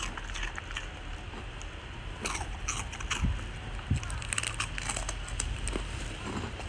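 A crunchy rice cracker (senbei) is chewed, giving faint crisp crunches and crackles, a few sharper bites among them, over a steady low hiss.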